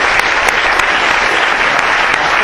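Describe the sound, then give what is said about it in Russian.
Audience applause for the speakers at the close of a panel discussion: a steady, dense patter of many hands clapping throughout, evenly loud, with no voices on top. “Давайте похлопаем всем спикерам.”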